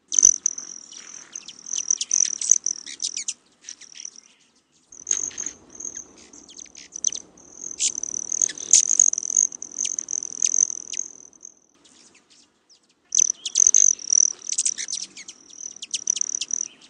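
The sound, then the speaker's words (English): The metallic trilling wing whistle of a male broad-tailed hummingbird comes in a few bursts, separated by short silences. Sharp, high chirps are scattered over and between the bursts. “One is the sound that's made by the wings of the male broad-tailed hummingbird, and when they flap their wings, they make a whistle. And the other noise that you're hearing is the chirping,”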